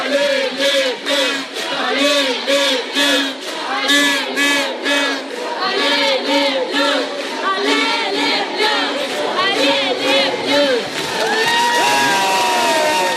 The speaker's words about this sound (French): Allez, les Bleus avec l'accent russe, hein, comme vous avez entendu.